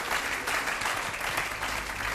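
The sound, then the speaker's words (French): A church audience applauding to acclaim the Lord for the women of the church: dense, steady clapping at an even level for about two seconds, with no voice rising above it. “Est-ce qu'on peut acclamer le Seigneur pour les femmes de l'Église?”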